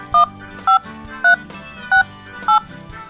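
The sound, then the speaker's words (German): Touch tones of a telephone number being dialed: five short, evenly spaced two-tone beeps, clear and loud over a steady low background. “Naja, anrufen kann ich ja trotzdem mal.”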